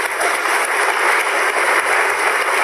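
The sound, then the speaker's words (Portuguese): Loud crowd applause for a woman: a thick, continuous wash of many hands clapping that holds steady at full strength throughout without a break. “E estamos a ouvir um grande aplauso.”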